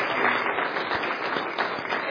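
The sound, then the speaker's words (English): Audience applause for armed forces veterans standing during a religious service: a dense, steady patter of many hands clapping, with voices mixed in. “And let's give them a round of applause, can we?”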